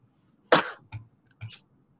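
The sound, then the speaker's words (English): One sharp, rasping cough from a person getting over an illness is followed by two shorter, softer throat-clearing bursts, alone against silence. “if you guys hear me cough in the background, that's why.”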